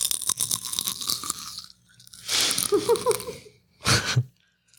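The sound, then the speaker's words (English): Crisp crunching of popcorn being chewed, with several bursts of dense, crackly bites and munching separated by brief quiet gaps, loud and alone with no talking. “That's the sound of popcorn.”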